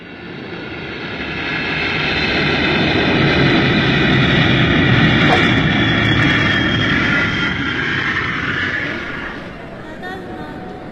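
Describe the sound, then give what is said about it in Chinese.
Aircraft engine noise at Narita Airport forms a loud, steady, broad roar. It holds level through most of the stretch, then eases slightly near the end. “这成田机场可真大呀！”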